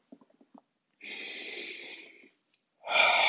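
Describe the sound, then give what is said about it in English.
Deep breathing, with a few soft clicks, then a long, drawn-out breath, a pause and a second strong breath beginning near the end. “Breathing. Do it with me.”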